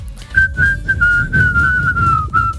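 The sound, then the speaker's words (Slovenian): Someone whistles a tune very high, a clear, piercing line of sustained notes broken by a few brief gaps, over a faint low rumble. “Jaz nisem vedela, da on tako dobro žvižga. Ja, res je dober. Čeprav je zelo čuden, ampak dobro. Ful visok zna žvižgati.”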